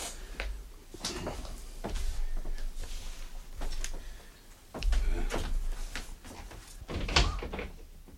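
A house door being opened on an ordinary morning: a cluster of dull thumps, knocks and rattles from the handle and door, with a louder bump near the end.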